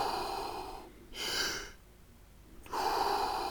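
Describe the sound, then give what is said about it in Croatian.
Deep, slow breathing during a guided breathing exercise: a long soft exhale, then a drawn-in inhale, then another long exhale. The breaths are airy and quiet, with hushed pauses between them. “Fini, duboki, kružni dah. Unutra i van.”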